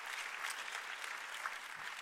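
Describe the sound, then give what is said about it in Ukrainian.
Applause from a church audience, a steady, fairly faint patter of many hands clapping together without pause, with no distinct voices rising above it. “Ці аплодисменти во ім'я Господа для вас.”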